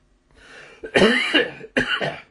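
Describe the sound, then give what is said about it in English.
A lingering cough breaks out in two harsh, loud bursts, each with a rough tail, after a faint breath at the start. “No, I don't have the virus. I've had this cough.”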